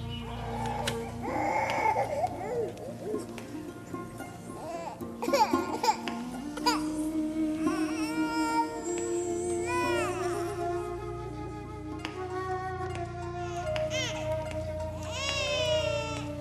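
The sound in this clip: An infant cries and fusses without settling, giving continuous wailing and whimpering with swooping, wavering pitch at a fairly steady loudness throughout.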